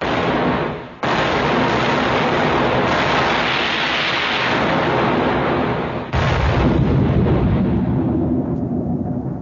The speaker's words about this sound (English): Aim for that point over there and fire!